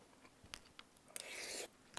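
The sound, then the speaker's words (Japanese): Japanese keema curry with crunchy lotus root is chewed, giving a few faint crisp bites followed by a longer, brighter crunching burst. “美味しいレンコンのシャキシャキ感も残ってて”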